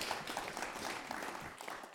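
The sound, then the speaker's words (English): A church audience claps during a Pentecost service. The applause is faint but continuous, a dense patter of many hands that thins out near the end. “Let us clap for Ariel.”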